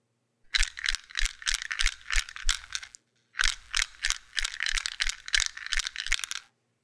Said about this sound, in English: The sound is a plastic maze game, and the ball is rattling around inside of it.